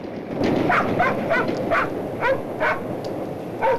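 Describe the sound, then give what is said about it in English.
An Alsatian dog gives many short, yelping barks and yips in an uneven rhythm, with whiny, high-pitched tones and brief gaps between calls. “An image of a Nazi soldier running in daylight with an Alsatian dog.”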